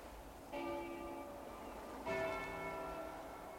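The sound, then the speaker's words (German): Two strokes of a church bell ring out faintly, each leaving a lingering metallic hum of overtones that slowly fades before the next strike. “Hören Sie das? Glocken! Glocken, Professor!”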